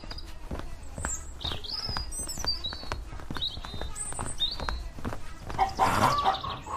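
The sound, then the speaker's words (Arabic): Chickens in a henhouse, disturbed by foxes, squawk and cluck in agitation. Many overlapping calls and scuffling footsteps are heard, fairly faint throughout. “الثعالب في حظيرة الدجاج، هيا بنا بسرعة.”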